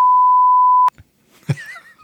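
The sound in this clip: A censor bleep covers a swear word: a single loud, steady high-pitched tone lasting just under a second, cut off sharply, followed by a few faint scraps of sound.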